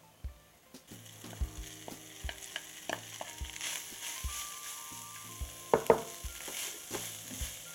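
Meatless crumbles sizzle with oregano and other spices in hot oil as a utensil stirs them around a pan, giving many quick scraping clicks over a faint, steady frying hiss.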